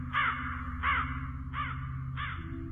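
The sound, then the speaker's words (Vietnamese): Crows caw over a silent landscape strewn with rotting corpses: four harsh, raspy caws spaced fairly evenly over a low, steady droning hum, each call short and grating. “Ở trên bầu trời, bầy quạ cứ bay qua bay lại kêu en ét trong không gian tĩnh mịch, nghe mà sởn da gà.”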